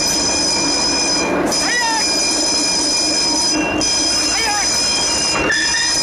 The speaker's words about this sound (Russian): Трамвай останавливается, открываются двери